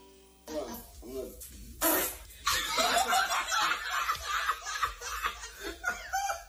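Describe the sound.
Loud fart let out by a woman during a deep stretch with a flexibility coach, a brief harsh burst followed by a stretch of laughter and snickering mixed with talk.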